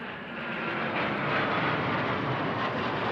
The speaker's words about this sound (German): Aber nur Sekunden später sind die 3 Eurofighter-Kampfflugzeuge der Bundeswehr deutlich zu erkennen.